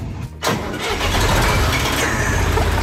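A 1977 field-equipment tractor with a front tipper starts up: a brief cranking burst, then the engine catches and settles into a loud, steady running rumble.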